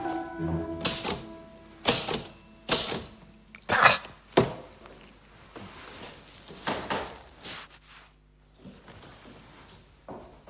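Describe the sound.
Typewriter typing: irregular bursts of sharp mechanical key strikes and clacks, some loud and heavy, with quieter tapping scattered between them.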